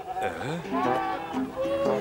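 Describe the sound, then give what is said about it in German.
Sheep bleat in a green meadow, a few wavering, nasal calls that overlap one another at moderate loudness. “hier sind grüne Wiesen mit Schafen”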